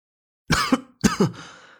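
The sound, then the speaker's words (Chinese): Two short coughs from a person, loud and dry, the second followed by a breathy trailing rasp, with silence before and between them. “安宗坐在他对面，咳嗽了两声”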